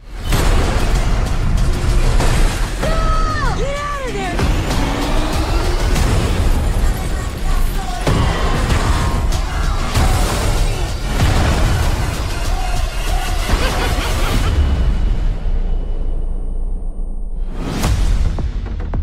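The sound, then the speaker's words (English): Bomb explosions in an action movie trailer: heavy booms and whooshes packed into a loud, dense mix that runs almost the whole way through, dropping away briefly near the end before one last burst. “That's a bomb. All right, dorks, what are we blowing up?”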